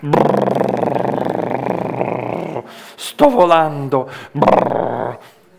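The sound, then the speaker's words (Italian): A voice imitates an aircraft engine with a loud, sustained, rumbling buzz for about two and a half seconds. A few shorter voiced bursts follow. “manca qualcosa, manca il rumore del motore”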